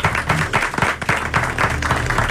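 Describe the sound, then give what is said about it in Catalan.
An audience applauds an arriving guest: a continuous patter of clapping, fairly loud and pulsing slightly in strength, with a low steady hum underneath. “Bueno, un aplaudiment, per favor, perquè acaba d'entrar una de les persones més importants d'aquest país”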